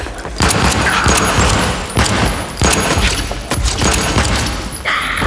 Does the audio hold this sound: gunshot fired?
yes